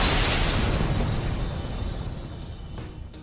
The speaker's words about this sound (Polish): To co słyszeliście, to była eksplozja.